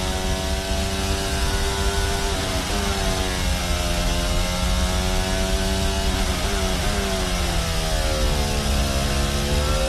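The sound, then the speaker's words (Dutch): Onboard engine of a Formula 1 car driven by Lando Norris at the Dutch Grand Prix, a loud, sustained high-revving whine that drops in pitch a couple of times at gear changes and climbs again. “Onboordgeluid komt van Lando Norris.”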